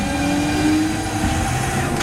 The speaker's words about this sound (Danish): Og så trykker jeg på knappen. Og så skulle toget gerne køre. Og det gør det også.